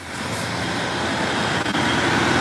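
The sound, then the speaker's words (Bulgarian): Road traffic noise as heavy lines of cars crawl slowly through the town of Kresna during a congested stretch, a steady, loud, unbroken rumble and hiss with no clear individual passes. “От тук, от Кресна, виждате зад мен, автомобилите продължават да пълзят буквално през вътрешността на града.”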